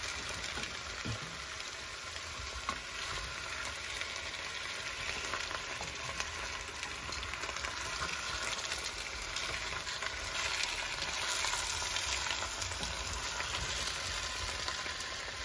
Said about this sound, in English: I'm stirring now. To mix everything up. Dill, onions, potatoes, and peas.